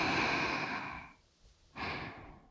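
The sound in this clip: A deep breath taken slowly: a long, airy, breathy rush lasting about a second that fades into a short pause, then another soft breath begins.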